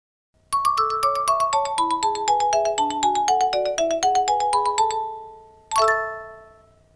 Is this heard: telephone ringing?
yes